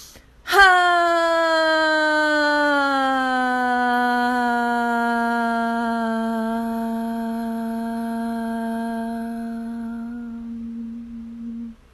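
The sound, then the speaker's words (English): A long, loud voiced exhale in a breathing exercise, sounding like a steady moan-like tone. It starts abruptly, dips slightly in pitch early on, then holds evenly for about eleven seconds before cutting off. “Next breath, a little louder and longer. And your final 5th breath, louder and even longer.”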